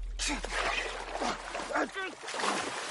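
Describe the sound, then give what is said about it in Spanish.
Water splashes and sloshes in irregular bursts as two men grapple by the neck and one pushes the other's head under the water. Breathy vocal sounds are mixed in with the splashing. “Los dos se agarran del cuello. Harry empuja la cabeza de Paul bajo el agua.”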